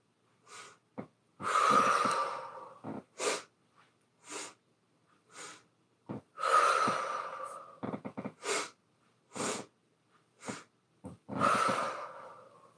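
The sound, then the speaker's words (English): A breathing exercise of quick inhales followed by a long exhale: sharp, short breaths come in sets of about three, each followed by a long, noisy exhale. The cycle repeats three times, with no talking. “So that is three, or however many you're inhaling, one, two, three. Three inhales and a good exhale.”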